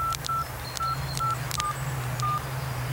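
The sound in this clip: Keypad tones from a mobile phone dialing a stored number: five short, clear beeps in an uneven rhythm, with faint button clicks over a low, steady hum.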